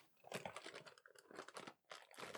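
Crisp crunching of dried seaweed snacks coated in powdered shrimp, a dense run of crackly, rustling bites and crinkles that comes in several bursts with short dips between, moderately loud and with no talk over it.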